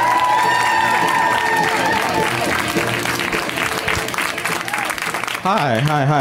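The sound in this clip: An audience claps and cheers as a comedian is welcomed onto a stand-up stage, with loud, sustained applause and whoops throughout, and a voice cuts in over the fading clapping near the end.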